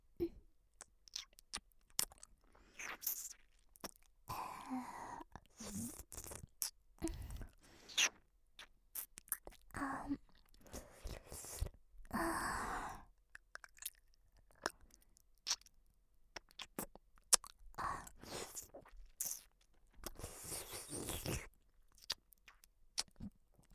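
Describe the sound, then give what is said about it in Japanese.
Wet mouth sounds of chewing and nibbling in a roleplay of eating someone's ears: many quiet, irregular smacks, clicks and squelchy bursts, with no talking. “君のお耳を久しぶりに食べるね。やっぱり君のお耳とっても美味しい。”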